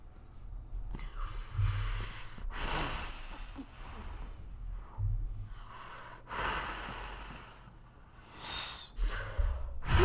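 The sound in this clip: Heavy breathing from a person panting hard, with many rough, loud breaths in and out following one another in an uneven rhythm, some sharp and gasping.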